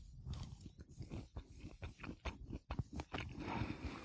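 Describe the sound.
Someone bites into and chews a black bean burger, with many crunchy, moist chewing sounds in an uneven but steady rhythm. No one talks.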